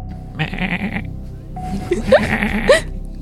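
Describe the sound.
A human voice imitates a goat's bleat with two wavering, nasal bleats. The first is short and steady, and the second is longer, with a few sharp pitch jumps. They are fairly loud and stand alone.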